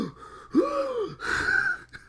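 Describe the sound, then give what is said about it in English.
A long, drawn-out human gasp: a voiced, breathy intake that bends in pitch, then carries on into a higher, sustained strained tone lasting well over a second, heard alone and fairly loud. “like that made me laugh was the gasp because it just kept going on.”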